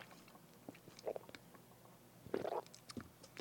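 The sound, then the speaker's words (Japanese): Someone drinks a beverage during a pause in talking: faint gulping and wet mouth sounds, with two clearer swallows among softer bits of noise. “ちょっとあの待ってくださいね、飲み物飲んだらしゃべります。”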